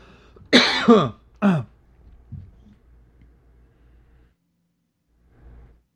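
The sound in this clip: A person with a dry throat coughs a few times in loud, rough bursts, then gives a softer throat clearing, with a faint low rasp after a quiet pause.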